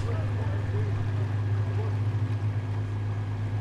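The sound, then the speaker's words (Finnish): A boat crosses open water on a roughly half-hour trip in the Kabale area of Uganda, giving a steady low droning hum with a constant wash of water noise and no breaks. “ainoa tapa mennä sinne on tällä veneellä ja matka kestää noin 30 minuuttia”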